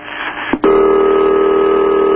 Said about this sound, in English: I knew I'd like that ring. Very few phones have that kind of ring